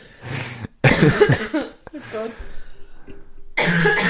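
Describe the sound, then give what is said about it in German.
A person coughs a few times, each cough a harsh, throaty burst with a rasping tail, separated by short pauses. “Du musst einfach wirklich nicht leise sein, wenn ich huste.”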